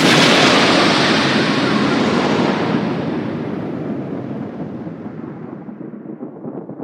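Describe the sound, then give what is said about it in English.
An explosion sound effect: a loud, broad rumbling boom that hits at full force and then slowly fades over several seconds. No voices are present. “If you say Banksy 3 times in a row, then he explodes.”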